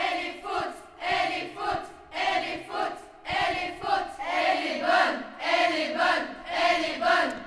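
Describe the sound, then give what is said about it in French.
An audience shouting over a disputed line call, many loud bursts of voices crying out together in a rhythmic, repeated pattern. “Dans ce cas-là, comme vous le savez, les joueurs doivent se remettre à l'avis du public. Écoutons.”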